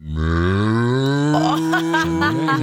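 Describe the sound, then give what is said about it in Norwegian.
A human voice imitates a desperate cow with one loud, drawn-out moo lasting under three seconds. The low, strongly harmonic call rises slightly in pitch and turns strained and wavering toward the end. “Nå hadde du den kuen, så har du mer sånn desperat ku, ikke sant?”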